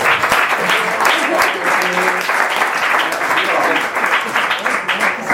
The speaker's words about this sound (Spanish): Así que un fuerte aplauso para Celia Romero.